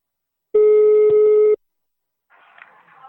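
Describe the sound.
A telephone call being placed: one steady, loud tone with a buzzy edge rings for about a second and stops. After a pause comes a faint, muffled stretch of sound.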